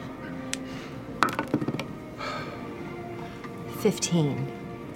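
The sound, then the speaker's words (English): Dice clink as a player sorts through a rack of them: a quick burst of hard, bright clicks and knocks, then a few more later, heard under ongoing conversation. “Oh, she's going through another rack of dice.”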